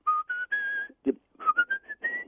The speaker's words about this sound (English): Well, the pucker whistle, the thing about whistles in general, like flutes, they're, nothing vibrates except the air itself.